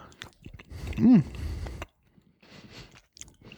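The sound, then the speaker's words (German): Chewing of a small, firm piece of cheese being tasted: a dense burst of crunchy, squishy bites, then a pause and a few quieter, scattered mouth sounds. “So, ich probiere den mal. Ich habe mal ein kleines Stück abgeschnitten. Der ist auch sehr fest von der Struktur her.”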